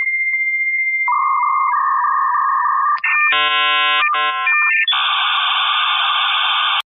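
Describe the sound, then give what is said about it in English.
Electronic telephone tones during an outgoing call: a steady pulsing beep, then lower held tones, then bursts of buzzy multi-tone signals ending in a sustained ring, with no voices. “Let's see if you can dial him up. All right, let me give him a ring.”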